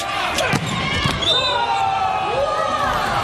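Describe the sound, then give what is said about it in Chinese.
Sharp ticks of a table tennis ball during a serve in a Chinese Taipei team match, a few crisp bounces scattered under steady commentary. “这个发球发出来”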